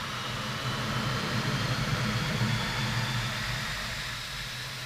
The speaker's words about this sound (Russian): Он отпустил тормоза по кивку белого шлема Хендерсона, оба самолета набрали скорость и поднялись в воздух.